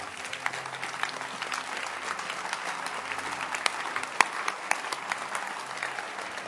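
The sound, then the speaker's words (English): A church audience stands and claps after a sermon. Many hands make sustained dense applause, and a number of sharper individual claps stand out above the steady mass of clapping. “Can you stand up and clap your hands?”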